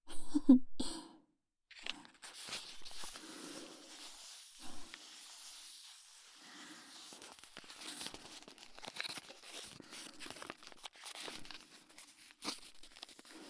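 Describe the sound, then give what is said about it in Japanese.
Crinkly rustling and soft scratching as an unopened, still-wrapped bar of soap is handled for ASMR. Many faint, irregular crackles and brushing sounds come and go, with no talk. “まずは未開封の石鹸の音からだよ。未開封の状態から ASMR は始まってるんだよ。”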